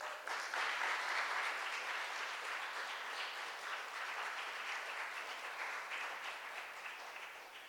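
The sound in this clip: An audience gives a warm round of applause to welcome a guest preacher at a church service: full, continuous clapping from many people, strongest at the start and easing slightly toward the end.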